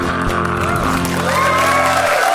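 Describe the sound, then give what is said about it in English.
An audience applauds and cheers, a continuous wash of clapping with a few whoops and shouts rising over it. “And applaud that.”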